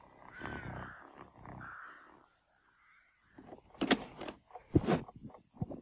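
A cat in a cold graveyard gives a few drawn-out, tonal vocal calls, then falls quiet before several sharper, noisier bursts of sound.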